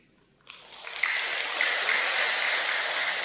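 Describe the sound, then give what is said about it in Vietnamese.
A listening audience breaks into applause after a quiet start. The clapping swells quickly within the first second into a thick, sustained wash that holds at an even level to the end. “Tại sao lại vỗ tay?”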